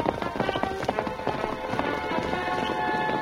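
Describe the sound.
Horses clip-clop as riders travel through a dark valley. The hoofbeats come as a steady, quick run of sharp knocks at moderate loudness over a faint hiss.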